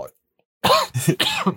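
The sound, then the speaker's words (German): Dry coughing: a few short, harsh, throaty bursts in quick succession after a moment of silence, fairly loud and close together. “Trockener Husten wieder.”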